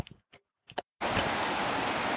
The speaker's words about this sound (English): But my sort of thing are these little streams, and this little creek is, as I said, I couldn't call it a creek. It's so small, but it's absolutely fantastic.